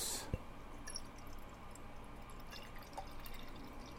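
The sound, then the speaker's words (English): Fresh carrot, apple, sweet potato, orange, lemon and turmeric juice is poured into a glass, a faint, steady trickle with a few soft drips. “Liquid sunshine has carrot, apple, sweet potato, orange, lemon, and turmeric. It's very good. I'm pouring a glass here.”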